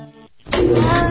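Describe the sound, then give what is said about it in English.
A cat meows inside a tumbling clothes dryer: a short tonal cry, a brief gap, then a loud, dense rumble of the drum. “Sound familiar? What you're hearing is a cat in a dryer.”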